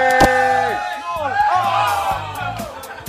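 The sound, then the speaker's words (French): A noisy, excited crowd of spectators at a France–Scotland match shouts and whoops loudly, with many overlapping voices and sharp cries rising above a steady roar. “On est attaqué par le public maintenant. Et c'est reparti dans le sens. L'audience nous attaque. Je déconne pas, c'est reparti dans le sens. Avec trop bien. Oh, quelle ambiance ici. Ils sont de moins en moins nombreux, mais de plus en plus bruyants.”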